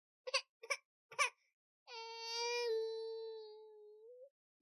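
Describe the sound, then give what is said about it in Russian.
Loud crying from a small baby boy: a few short sobbing bursts, then one long sustained wail that holds steady before fading out. “Раздается громкий плач, словно в ответ на мои мысли.”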